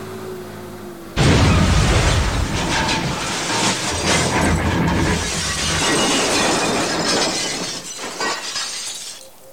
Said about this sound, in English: The bulldozer's exploded, boss. Luckily, I was thrown clear and appear uninjured.